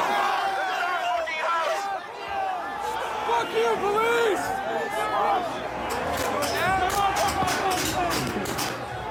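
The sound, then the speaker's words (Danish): A large, angry crowd storms the Capitol building in Washington, with many voices shouting and yelling over one another in a loud, continuous roar. “Det kunne lyde som en sportsbegivenhed med meget vrede fans. Men det er det ikke. Det er lyden af en kæmpe masse af mennesker, som stormer kongresbygningen Capitol Hill i Washington i USA.”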